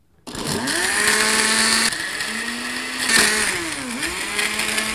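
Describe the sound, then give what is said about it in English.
A blender whirs as it purées ingredients to a smooth, creamy consistency. Its loud, steady motor whine sags and recovers in pitch a few times as the load shifts, and no voices are heard. “Blend it all to a smooth, creamy consistency. Oh. Put the lid on first.”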